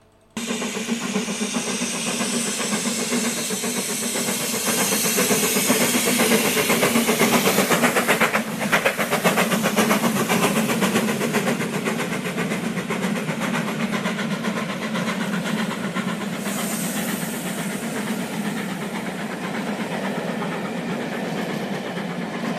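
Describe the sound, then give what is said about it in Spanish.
Inside a moving train while walking along the corridor toward a carriage, a steady deep rumble and rhythmic rail clatter run continuously at even loudness, with no voices. “Pero vamos a salir al pasillo porque tenemos que alcanzar ese vagón.”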